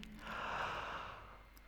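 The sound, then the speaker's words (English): One slow, deep breath in by a person, a soft breathy rush that swells and then fades, heard alone without speech. “And breathe in.”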